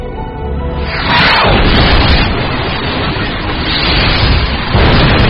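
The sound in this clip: A massive explosion at an embassy in Kabul: a heavy blast surges up about a second in and becomes a loud, sustained roar and rumble that swells again near the end.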